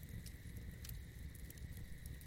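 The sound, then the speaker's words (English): Faint crackling of a campfire: a steady low rumble with scattered soft pops and snaps, a couple of them standing out slightly. “But for now, just continue to enjoy the campfire”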